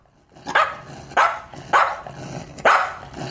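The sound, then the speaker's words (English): Dog barking in a series of loud, sharp barks at a fairly even pace, with a further bark just beginning as the sound ends. “The dog barks at Charlotte.”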